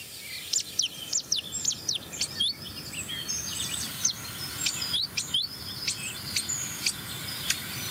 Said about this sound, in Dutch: Merel. Zwartkopalarm.